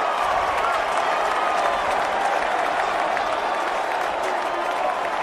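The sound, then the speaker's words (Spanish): Football fans cheer and applaud at MetLife Stadium after a Giants week-one victory: a steady, dense roar of crowd noise and clapping that holds at an even level throughout. “Voy a quedarme callado, Celis, para que se escuche el festejo de la afición en el MetLife Stadium.”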